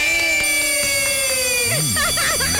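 An electronic telephone ring signals an incoming call: a steady, bright tone with a slightly falling pitch, then warbling, wavering tones, loud and without talk.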